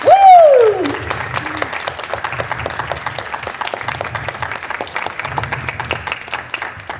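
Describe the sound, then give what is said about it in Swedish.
Audience applause for the announced winner at a prize ceremony, beginning after a short spoken word and then continuing as a full, even rattle of many hands clapping, with a low humming bed underneath. “kan vi inte klappa lite för att få lite så här feeling?”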